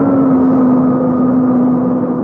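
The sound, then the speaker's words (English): An airplane engine drones as the plane comes to a halt, a loud, continuous hum with a steady low tone and no talk over it. “Plane's coming to a halt.”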